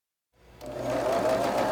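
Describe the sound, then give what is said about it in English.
A sewing machine starts up and settles into a steady, even whir at a quilting sewing day in a fabric shop; the brief run is fairly faint and has no voices. “After workshops like the one in Sonoma, blocks are brought here to a sewing day at the Cloth Carousel, a fabric shop in Vacaville.”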